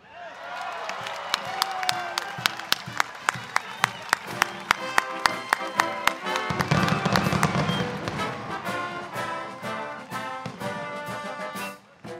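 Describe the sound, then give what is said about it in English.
At the christening and slipway launch of the container ship Isla Bella in San Diego, a rapid, even series of sharp cracks like fireworks gives way to swelling crowd noise with cheering and applause that fades at the end. “The container ship Isla Bella is christened, then launched from a slipway in San Diego. These are sounds from footage of the event recorded by Shipyard General Dynamics NASCO.”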